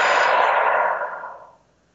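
A deep, slow breath: one long, airy rush that starts fairly loud, then gradually thins and fades away to silence.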